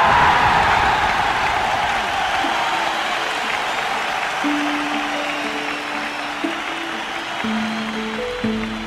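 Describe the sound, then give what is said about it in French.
A crowd gives General de Gaulle, the French president on a balcony, an immense ovation, shouting and applauding. The dense, loud roar of massed clapping and voices continues unbroken, easing only slightly toward the end. “L'ovation est immense, les yeux brillent, les bouches crient et les mains se tendent.”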